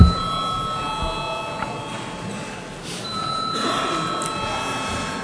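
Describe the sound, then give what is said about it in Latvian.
A bell rings in the Latvian parliament chamber to call members to a vote. It is a sustained electric ringing with steady bright tones lasting throughout, at moderate loudness over a faint background murmur. “Deputāti iebilst, līdz ar to šis jautājums mums jāšķir balsojot. Lūdzu zvanu.”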